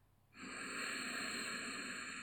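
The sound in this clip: A deep inhale during a guided breathing exercise: after a brief quiet moment, a soft, steady, airy rush of breath rises and holds evenly to the end.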